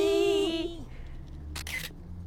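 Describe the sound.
Quick camera shutter clicks snap a group photo, a short burst coming after a drawn-out voiced call from the group.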